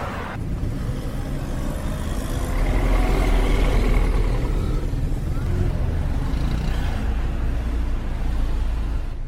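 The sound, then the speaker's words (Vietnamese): Busy traffic on Highway 101, with cars and trucks passing in a continuous dense rush of engine and tire noise that swells loudest in the middle and stays heavy throughout. “Xe cộ qua lại thật tấp nập trên xa lộ 101.”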